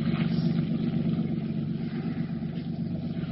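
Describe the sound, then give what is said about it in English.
A pleasure craft's boat engine drones with a steady, low, even hum that eases off slightly as it moves away. “The boat's going away, I think. Aye, it is. It's a pleasure craft.”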